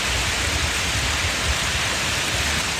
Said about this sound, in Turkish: Öğle saatlerinden itibaren yağmurla birlikte dolu yağdı.